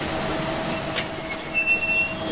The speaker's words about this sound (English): I see the Arkham bus has just pulled up outside